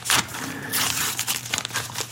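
A paper envelope being handled, giving crinkly, papery rustles in uneven bursts that rise and fall in loudness throughout.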